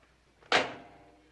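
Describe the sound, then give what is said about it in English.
A door is cautiously opened: one sudden thump and clack that fades quickly into a short tail, alone with no talking. “Jim Harris cautiously opens the door and indicates that they should talk in the corridor which Joe has just left.”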